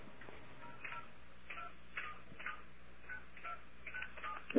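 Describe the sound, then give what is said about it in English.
Telephone keypad dialing tones while calling an airline's phone line: a quick series of short, faint beeps in a slightly uneven rhythm, many presses in a row, with no talking over them. “I'm going to call British Airways. Okay, I'm going to call British Airways.”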